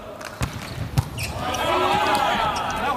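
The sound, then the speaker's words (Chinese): A volleyball bounces twice on the court as Germany's spiker prepares to serve in a match against China, giving two sharp thuds amid steady crowd noise and voices. “66号德国队的主攻手勒尔斯率先来发球”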